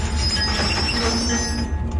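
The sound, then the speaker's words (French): Passenger train running on the railway from Chihuahua to the Pacific coast: a steady, loud rumble of wheels on track, with thin, high squealing tones sustained throughout and no talk. “c'est de prendre le train qui va de Chihuahua, la capitale de l'État, jusqu'à la côte du Pacifique.”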